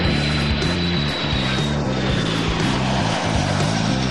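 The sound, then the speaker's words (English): Engine drone of a KC-135 Stratotanker aerial refueling aircraft at an air base in Kansas. A loud, steady low hum with a thin high whine holds throughout, and no voices. “Using these KC-135 Stratotankers, they fulfill a simple and critical mission: to keep our long-range fighters and bombers fully fueled in midair”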